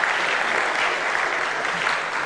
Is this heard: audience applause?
yes